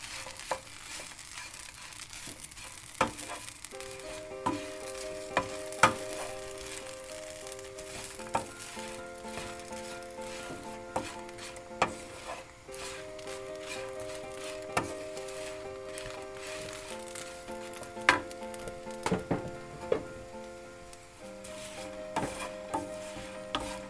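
Bread croutons toasting in butter in a pan for pea soup give a faint, steady sizzle, broken by scattered sharp clicks and scrapes of stirring, with soft melodic tones in the background.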